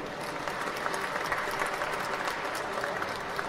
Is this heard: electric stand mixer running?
no